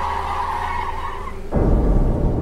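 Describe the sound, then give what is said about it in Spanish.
A car skids with a steady tire squeal while running someone over. The loud screech lasts about a second and a half, then breaks abruptly into a heavy, low rumble. “Los entraron y lo atropellaron. Lo aventaron con el coche y todavía le pasaron encima.”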